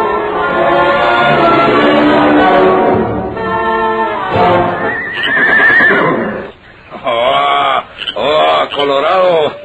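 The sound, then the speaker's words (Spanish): Horse neighing loudly in long, shaking whinnies, with people talking and laughing over it. “quieto, quieto, quieto, quieto, caballito. Está chulo el animal.”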